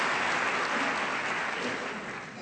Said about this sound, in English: You can't clap during Mass, but let's clap for him now.